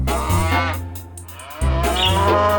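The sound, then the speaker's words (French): Cows moo on a farm, giving long, deep, drawn-out calls with a brief dip between two bellows, fairly loud and with no voices over them. “Au revoir les vaches, à bientôt.”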